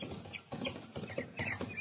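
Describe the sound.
Hoofbeats of a rider's horse approaching fast in a Western radio drama: rhythmic clip-clop strikes come in quick, repeated groups at a faint, steady level.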